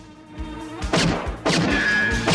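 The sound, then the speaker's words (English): Heavy crashing blows as a door is kicked open and its lock breaks off. A few loud, sharp impacts ring out over a sustained tonal background. “The lock flies off the door and Otto kicks it open.”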